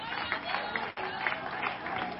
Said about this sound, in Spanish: Dele aplauso al Señor